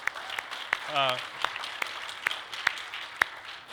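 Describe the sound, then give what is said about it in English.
Slow, evenly spaced single claps from a church audience at Hayward Wesleyan Church ring out faintly one after another, with a brief voice heard early on between them. “Ryan was smiling when you clapped. Why don't you clap again one more time?”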